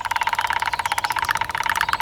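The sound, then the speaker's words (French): Two woodpeckers drum their beaks against a tree trunk in a rapid, steady, machine-like run of many hard taps that continues without a break, fairly loud and with no voices. “Les deux pivers martèlent le tronc avec leur bec à une allure folle.”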